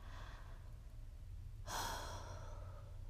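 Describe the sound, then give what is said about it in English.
A person takes a deep breath: a soft, faint, breathy rush of air that starts partway through, over a quiet, steady low hum. “Did you hear that? That was me trying to take a deep breath.”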